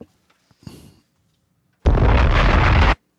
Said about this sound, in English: Bombs!